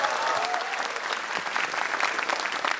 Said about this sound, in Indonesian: Keren, tepuk tangan dulu buat lu.